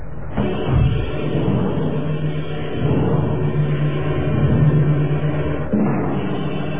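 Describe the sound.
A car drives away, its engine giving a loud, steady, low rumble for several seconds, with a sharper surge near the start and another near the end.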